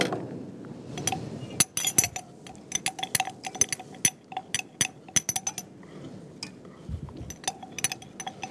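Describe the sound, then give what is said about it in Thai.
A spoon gently stirs a salt and flour scrub, giving many light, irregular clinks and soft scrapes. Quick taps come in uneven bursts at low volume, with no voices. “ก็คนเบาๆนะคะคนเบาๆ”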